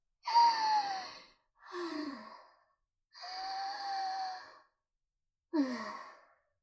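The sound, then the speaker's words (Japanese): Deep, heavy breathing as someone tries to calm down: four loud, breathy and partly voiced breaths, like exaggerated sighs. Long breaths alternate with shorter ones, separated by short silences, with no talk. “まずは深呼吸。うわぁ、この呼吸はダメダメ。”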